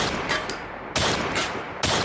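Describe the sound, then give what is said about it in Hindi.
Several gunshots ring out as a gun is fired at every burning light in a mansion. Each is a loud, harsh burst that is sustained rather than clipped, spaced irregularly, with no voices. “शिवाय उठा और उसने अपनी gun उठाकर हवेली की हर जलती हुई light को शूट कर दिया।”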